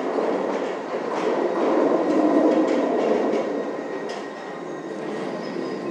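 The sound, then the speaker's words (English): A London Underground train pulls into a platform at a station on the Circle Line, a loud rolling rumble that swells and then eases, with a faint high wheel squeal near the end and no talking. “Right, train coming, I think this could be an Ealing, so we might get this.”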